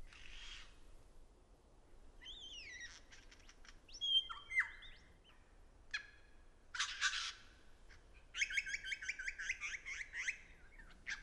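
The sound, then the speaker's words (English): Male lyrebird in a Southeast Australian forest singing mimicked songs of other birds. Faint, varied phrases of whistles, sweeping notes and rapid chattering bursts follow one another with short pauses between them. “It's a lavish mimicry, interweaving perfectly rendered songs from the lyrebird's surroundings, mostly the songs of other birds that live here in this Southeast Australian forest.”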